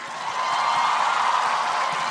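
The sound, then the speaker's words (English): Audience applause for a woman at a live event, a steady, dense wash of many clapping hands that holds at an even level for about two seconds. “Everybody claps for her.”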